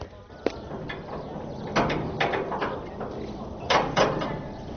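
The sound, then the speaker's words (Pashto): A prison door being opened: a few mechanical clanks and knocks, beginning with one sharp click and followed by scattered thuds over a steady low background. “زابطه دروازه خلاصه کړه”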